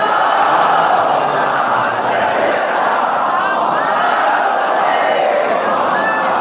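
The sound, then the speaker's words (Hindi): A crowd chants slogans together at a religious gathering, a dense, loud, continuous roar of many voices that holds steady for the whole stretch without a break. “नारे मत लगाओ, नारे मत लगाओ”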